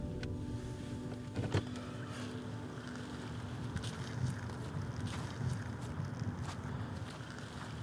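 A car pulls in to park in a gravel parking lot behind an apartment building, giving a steady low rumble with wind noise throughout and a few brief knocks and clicks.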